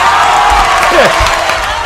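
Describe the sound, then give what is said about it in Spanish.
Prerecorded studio audience cheering and applauding: a dense, continuous wash of clapping and crowd noise holding steady at a fairly loud level throughout, with a brief whoop rising out of it near the middle. “Ese público pregrabado, ¿dónde está? Miren, Dios. miren, la familia. Mira cómo es el público. Ahora digo yo una tontería como hace buen tiempo y ellos.”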